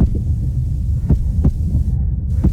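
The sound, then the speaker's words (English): Heartbeat of a bus driver after being yelled at, insulted and threatened: a few dull, low thumps at uneven spacing over a steady, dense low throbbing hum. “This is the sound of a bus driver's heart rate after they were yelled at, insulted,”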